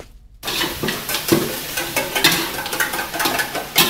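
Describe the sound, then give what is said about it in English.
Fish eggs sizzle in a pan as teenage boys cook their evening meal in an old house in Mae Sot, a steady frying hiss that starts after a brief moment of quiet, punctuated by many soft stirring scrapes. “In an old house down a side street in Mae Sot, a group of teenage boys cook their evening meal together. What are you cooking? Fish eggs.”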